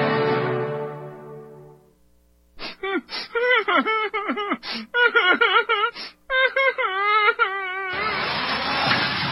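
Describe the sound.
Whining, whimpering vocal sound effect: a fading sustained tone gives way to many short, high, wavering whimpers and moans in quick succession, fairly loud and alone, before a steady broad hiss takes over at the end.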